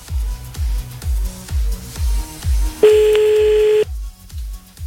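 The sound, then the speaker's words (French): A telephone rings out while someone calls a person back. A single steady mid-pitched ringback tone lasts about a second, sounding over a rhythmic, thumping low beat. “Donc, on la rappelle. C'est reparti, j'espère qu'elle va décrocher”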